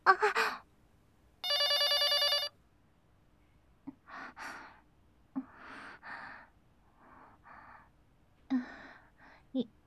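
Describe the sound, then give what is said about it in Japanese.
A telephone rings once in a bright, buzzy electronic burst lasting about a second. Soft breathy gasps and sighs come in short bursts before and after it. “今の電話は誰からだったんでしょうか。”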